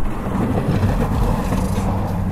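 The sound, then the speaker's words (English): A snow plow pushes drifts of snow in a parking lot in upstate New York in bitter, windy cold, giving a loud, steady low rumble with a continuous scraping hiss. “A plow pushes drifts of snow.”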